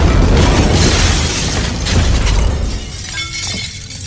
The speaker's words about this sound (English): What was that? Run-of-the-mill grenade.